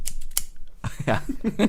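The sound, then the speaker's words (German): Scissors snipping: a few crisp, sharp clicks in quick succession, followed by voiced sounds. “Wir machen Scherengeräusch. Warte. Schnippschnapp. Schnippschnapp.”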